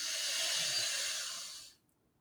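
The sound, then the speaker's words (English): A deep inhale through the nostrils during a guided meditation: a steady, airy breath hiss that holds for under two seconds, then cuts off into near silence. “Deep inhale through the nostrils.”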